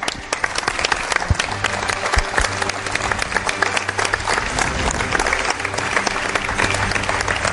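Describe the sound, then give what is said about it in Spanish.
Dense, sustained applause from a live audience at a radio program, steady and loud for the whole stretch with many overlapping claps and no talk on top. “Un aplauso.”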